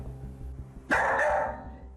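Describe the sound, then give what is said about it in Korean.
A dog left alone at home barks excitedly, a short loud burst of sharp barking rising over a low, steady background hum and then fading. “이러고 계속 짖는 거예요? 네네네. 저희 올 때까지 계속 이러고 짖어요.”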